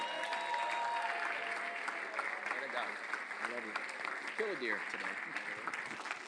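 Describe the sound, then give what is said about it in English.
Church audience applause: dense, steady clapping fills the whole stretch at an even level, with a voice speaking over it. “Come on, put your hands together for Jesus, who alone is worthy. Come on, you can do better than that.”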